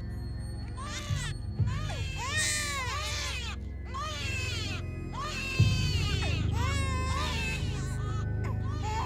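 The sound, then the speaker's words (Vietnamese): A newborn baby wails in a series of high, harmonic cries, each burst rising and falling, over a steady low rumble; the infant is bitten by fire ants, its body turned bluish. “Thằng trưởng còn đang ngơ ngác bàng hoàng thì đột nhiên lại thêm một tiếng khóc nữa vang lên.”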